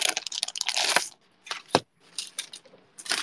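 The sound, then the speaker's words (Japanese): Brown paper envelope being taken out: a few short, crisp paper crinkles and rustles separated by brief quiet pauses, fairly soft overall. “取り出したるは、じゃじゃん、同じく茶色い封筒ですが”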